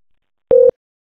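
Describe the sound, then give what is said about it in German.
A telephone line tone sounds as a second call is placed: one short, steady electronic beep at a single mid pitch, alone in silence. “Jetzt kommt ein zweiter Anruf.”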